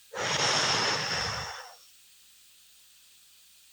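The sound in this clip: A deep breath is blown out in one long, breathy exhale. The airy hiss lasts about one and a half seconds, fades away, and leaves near silence.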